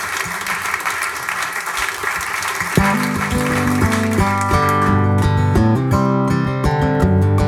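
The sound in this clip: An audience at Eddie's Attic applauds to welcome a performer, a dense wash of clapping that gives way after a few seconds to steady tonal instrumental music.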